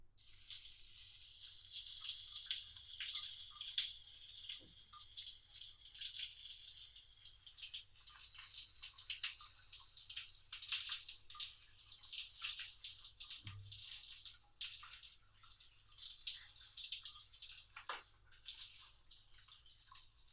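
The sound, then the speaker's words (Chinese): Water running steadily from a tap as someone takes a bath, heard as a faint, continuous hiss that does not stop. “妈妈去洗澡了”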